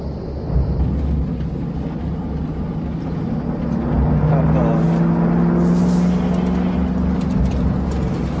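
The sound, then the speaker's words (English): A car speeds up while tailgating another car, a loud, steady engine rumble that grows louder past the midpoint as its tone climbs with the acceleration. “They close the gap, speeding closer and closer, until the lead car tailgates the young men's car, bearing down on its occupants with shadowy menace.”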